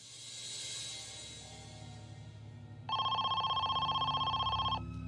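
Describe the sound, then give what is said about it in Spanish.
A telephone rings with a rapid trilling electronic bell, one sustained burst of several seconds after a stretch of low background hum, with no voices. “Esperaban que esta fuera la llamada que pudiera asegurar la liberación de Amy.”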